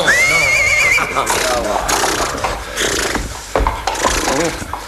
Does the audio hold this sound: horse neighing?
yes